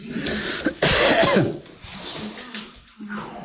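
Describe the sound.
Throat clearing and coughing: a few harsh, rough coughs and throat-clearing bursts, with one long raspy spell in the middle and a softer one near the end.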